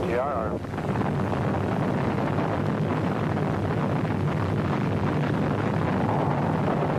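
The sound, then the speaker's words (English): The Saturn IB rocket roars at the Apollo 7 liftoff in October 1968, a loud, dense, continuous rumble that holds steady for the whole seven seconds. “So Apollo 7 lifted off on Friday, October 11th, 1968. 5, 4, ignition.”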